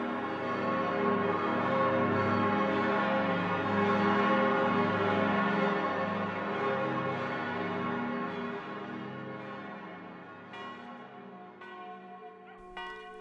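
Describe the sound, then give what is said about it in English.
A church bell in the French countryside rings with a rich, sustained hum of overtones that slowly fades, with a few fresh strikes toward the end. “That's the sound of a bell in the French countryside.”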